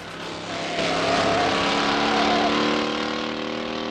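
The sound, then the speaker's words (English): In a film chase, a van and a car run through city streets with an engine roar that swells early, holds loud and steady with a droning hum, then eases slightly toward the end. “The van drives along a flyover while Lon skids round a corner onto a main street.”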